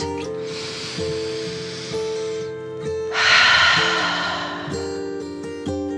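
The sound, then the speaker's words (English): A slow, deep breath is drawn in and then let out as part of a children's relaxation story. Two long, airy swells of breath rise over a soft, sustained music bed. “The three friends took a deep dragon breath in and out.”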